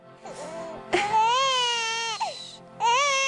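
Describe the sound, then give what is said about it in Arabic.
A baby boy cries in loud, drawn-out wails, a faint whimper opening into long sustained cries broken by brief catches of breath, with no other voices. “ليش عم تبكي يا عمري؟”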